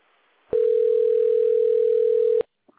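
A telephone ringing tone while a call is placed: one long, steady, pure tone lasting nearly two seconds, followed by a faint brief click.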